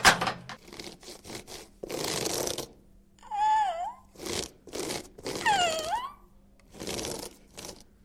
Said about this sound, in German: Hungrig? Dann isst doch ein Apple.